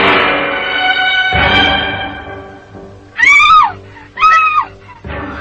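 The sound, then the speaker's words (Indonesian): A woman screams twice, two short, loud, high-pitched wavering cries over a steady low drone. “tiba-tiba dari arah lain terdengarlah jeritan seorang wanita”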